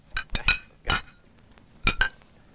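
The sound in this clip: Glasses clink together in a celebratory toast, six bright, ringing chinks heard alone, arriving in small clusters with short quiet gaps between them.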